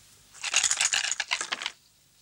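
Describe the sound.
Dice rolled in a board game rattle and clatter: a quick burst of many sharp clicks lasts just over a second, then stops, with no talk.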